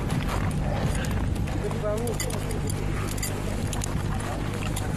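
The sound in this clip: Horses walking and breaking a trail through deep snow, with a steady, dense clip-clop of hooves running throughout under constant background noise and voices.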